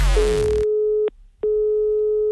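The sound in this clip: Ringing tone of an outgoing telephone call: a steady mid-pitched tone sounds for about a second, breaks briefly, then resumes, preceded by a short falling swoosh.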